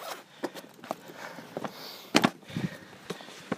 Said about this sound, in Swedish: Det är lite halt så jag går lite försiktigt här. Och nu är jag på bryggan.